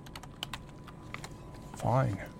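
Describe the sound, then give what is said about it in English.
Fingers tap rapidly on a computer keyboard, a quick run of many light, crisp key clicks, before a voice briefly speaks near the end. “You're going to get the Hilton Hotels, okay, type in Cleveland.”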